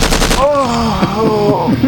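A gunfire sound effect opens with a short, rapid burst of automatic shots in the first half second, then gives way to sustained tonal sound.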